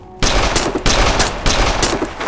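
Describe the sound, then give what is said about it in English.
Loud gunfire cracks out, with several sharp reports rising from a continuous, noisy roar and no voices. “The shot set Anya's nerves on edge.”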